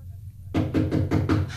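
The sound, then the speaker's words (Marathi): Knocking on a door during a talk about darkness and seeking light: after a short quiet moment, a quick run of several sharp, firm knocks follows over a low background hum. “खरंच कुणी दरवाजा ठोठावला काय हो?”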